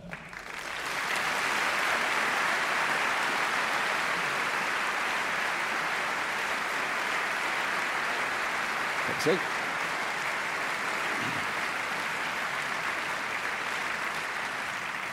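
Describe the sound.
Applause from an audience welcoming four expert panellists to the stage at a talk evening. Soft, steady clapping carries on evenly for the whole stretch at a modest level.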